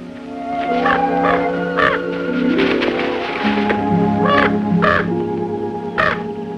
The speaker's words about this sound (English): the raven drops down beside her.